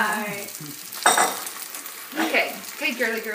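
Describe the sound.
Eggs frying in a pan for an omelette give a soft sizzle under people talking, with a few brighter bursts of crackle between the voices.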